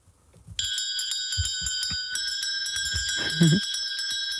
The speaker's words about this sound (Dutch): Wat een leuk belletje. Het geluid van je jeugd, klopt het een beetje?